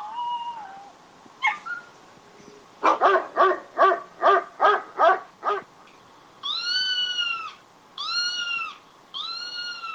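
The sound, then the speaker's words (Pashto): Street dogs in Turkey barking in a quick, even run of about seven loud, sharp barks, followed by several drawn-out, higher wailing calls in separate bursts. “ترکیه یو له هغو هیوادو څخه دی چې کوڅه ډبه، سپی او بیڅښتنه پیشوګانې ډېرې لري.”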